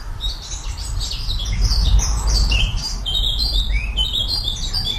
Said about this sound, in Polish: pan Andrzej nagrał dla nas ciszę w czasie ptasiej siesty w swoim ogrodzie